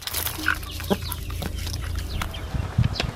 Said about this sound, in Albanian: Muhamet Ramadani ka përfunduar punët në kopshtin e tij dhe nisi ushqej pulat